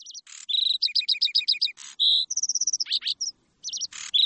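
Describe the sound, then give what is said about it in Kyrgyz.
A lark sings alone, pouring out rapid high chirps, repeated two-note series and quick trills in a dense, busy stream with short gaps. “булардын так үстүнөн газала чымчык торгой сайрайбы эмеспи?”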